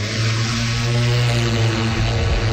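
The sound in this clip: An aircraft taking off on a magnetic survey flight gives a loud, unbroken engine drone with strong low humming tones under a broad hiss, steady throughout and with no voices.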